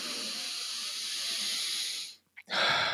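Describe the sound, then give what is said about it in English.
A deep, calming breath: a long, steady, airy exhale lasting about two seconds, then a brief pause before the next breath begins, with no talking. “So a few deep breaths, physiologically calm down.”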